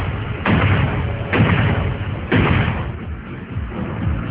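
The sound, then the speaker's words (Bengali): Revolver shots fired in an audio drama: a few heavy, muffled booms spaced about a second apart, each trailing into a low, lingering rumble, with no voices over them. “রিভলভারটা হাতে তুলে নেয়, মূর্তিটাকে লক্ষ্য করে কয়েকটা গুলি করে সে।”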